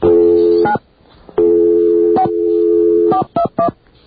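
Touch-tone telephone dialing beeps, some long and held, others short, changing pitch from one to the next and ending in two quick clipped tones.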